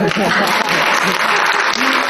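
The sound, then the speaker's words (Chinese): Audience applause at a live show of traditional Chinese song excerpts: dense, steady clapping from start to end, moderate rather than rousing. “咱这鼓掌不太热烈”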